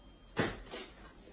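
A door being opened gives a short, muffled clunk followed by a softer second knock, faint against quiet background noise.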